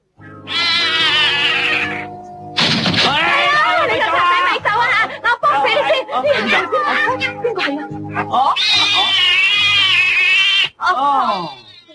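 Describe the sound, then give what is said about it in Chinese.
A cartoon cat meows in a 1987 Cantonese animated series: several drawn-out, wavering meows, loud and continuous, overlapping with other voices and sounds. “哦，原来只猫啊！”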